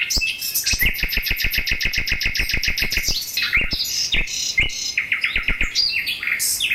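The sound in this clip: Caged birds singing spring songs in a flower greenhouse: many rapid, bright chirps in quick repeated runs, then looser trills and tweets, loud and continuous with no talking.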